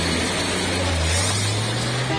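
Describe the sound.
A Chevrolet Chevette's engine accelerates as a low drone whose pitch climbs partway through, under a loud, broad rushing noise. No one talks.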